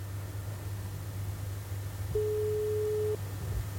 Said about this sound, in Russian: С нетерпением, конечно же, мы ждем сразу гудочков. Так, есть они там или нет? О, гудочки есть, это здорово.